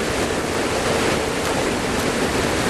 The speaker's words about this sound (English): I've got lots of water flow in the foreground.